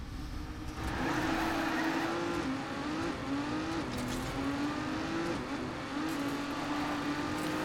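A racing car's engine whines in the video game Trackmania as it drives over a hill, a steady buzzing drone whose pitch repeatedly climbs and drops as the throttle is lifted and reapplied.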